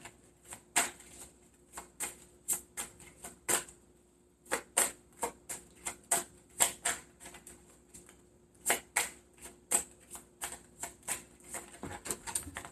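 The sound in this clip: Tarot cards being shuffled and drawn: many crisp snaps and flicks in irregular runs, with short pauses between bursts and no talk.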